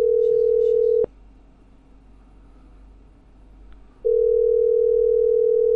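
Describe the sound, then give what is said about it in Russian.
Telephone tone heard while calling someone: a loud, steady tone cuts off after about a second, about three seconds of near-silence follow, and then the same tone resumes and holds to the end. “Ладно, я супруги этой набираю.”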